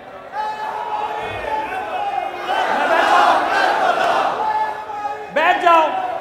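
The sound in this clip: A crowd shouting a religious slogan, naara-e-takbeer, in unison. Loud massed voices swell through the middle, then a single voice calls out sharply near the end.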